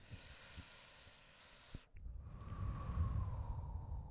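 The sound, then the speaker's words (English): A person takes a deep breath: a long, soft, airy rush of breathing that swells, dips briefly, then continues fuller, with no talking. “That's the deepest breath.”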